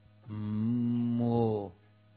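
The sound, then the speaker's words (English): A cow lets out a single long, low moo near a herd of cattle drinking from the Ganga on its riverbank. The call is steady and deep and rings alone for over a second before it breaks off. “mooing and drinking the cool and pure Ganga water.”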